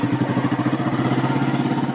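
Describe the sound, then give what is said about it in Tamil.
A motorcycle engine runs alone with a steady, low, throbbing putter and an even pulsing rhythm. “சரி வா, வண்டி எடு.”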